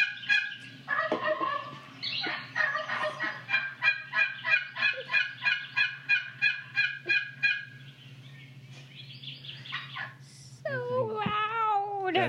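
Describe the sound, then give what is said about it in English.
Distant wild turkeys calling: a long run of quick, evenly spaced yelping notes over several seconds, then rougher warbling gobble-like calls near the end, over a steady low hum. “Listen to these guys. Well, you can hear the gobbles in the distance.”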